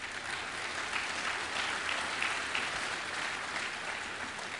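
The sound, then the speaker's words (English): Congregation applauding a man after a prayer in a church service, a fairly faint, steady and even patter of clapping with no talk over it. “you will not be applauded just like you applauded this man.”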